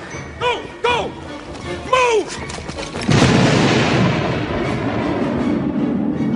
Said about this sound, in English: They quickly set their explosive charges and ran outside for cover.